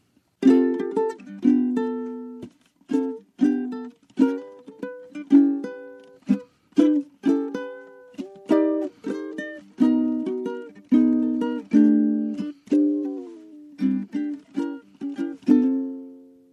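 Solo ukulele plays a jazz standard: many plucked notes and chords in a swinging, uneven rhythm, each quickly decaying, with brief pauses between phrases and no voices.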